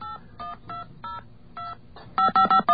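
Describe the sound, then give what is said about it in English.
Telephone number dialed on a touch-tone keypad: a series of short electronic beeps at uneven intervals, the last several louder and in quick succession. “Quick, let's call FEMA. Yeah, let's call FEMA.”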